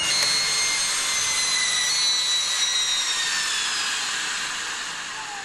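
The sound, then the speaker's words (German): A hot press applies precise pressure at a set temperature to form a capsule in a metal mould, giving a loud, steady whooshing whir that eases slightly toward the end. “Gut, dann setze ich das mal zusammen. Eine Heißpresse übt bei genau definierter Temperatur einen präzisen Druck aus.”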